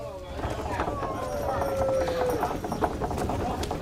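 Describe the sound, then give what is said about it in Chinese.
Hooves clip-clop steadily from a horse-drawn carriage, giving many quick rhythmic hoof beats at an even pace over a constant background of noise. “幸亏马车停下来了，不然小命就没了。”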